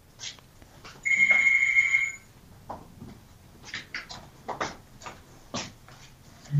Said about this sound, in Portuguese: Tem o telefone a tocar. Ai, ah, acha que vai desligá-lo? Se estiver aí a tocar muito tempo, é capaz de nos incomodar um bocadinho.